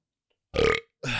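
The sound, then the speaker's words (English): A person burps in a short, deep, guttural burst, with a second burst starting just before the end and cut off. “It's just burping.”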